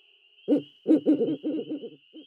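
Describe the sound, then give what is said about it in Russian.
An owl hoots from a tree in a low, throaty call: a single opening hoot, then a rapid, quavering run of hoots that trails off into one last short note. A thin, steady high whine continues throughout. “С какого-то дерева ухнула сова.”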